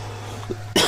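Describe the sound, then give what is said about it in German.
A single loud cough straight into a microphone, overdriving it into a harsh, distorted burst near the end, after a low steady hum and faint murmur. “Du hustest nur so dolle ins Mikro, dass es übersteuert.”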